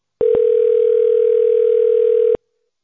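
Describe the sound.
A steady telephone line tone plays while an automated system transfers a call, one continuous mid-pitched hum of about two seconds with a faint click just after it starts, ending abruptly.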